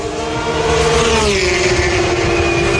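Racing car engine at the Madring circuit in Madrid during the first official tests. A loud, sustained high-pitched whine drops in pitch partway through and then holds steady over a broad, rumbling roar.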